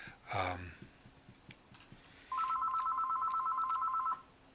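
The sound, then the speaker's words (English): A telephone rings persistently, a loud, steady electronic trill that pulses rapidly for about two seconds before cutting off. “they keep ringing, so I can't make the phone stop.”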